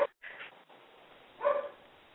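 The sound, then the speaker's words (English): A neighbour's dog barks over a telephone line, unsettled by a cat. A few thin, muffled barks come in short bursts, the loudest near the end. “Whose dog is that I hear? Oh, that's my neighbor's dog.”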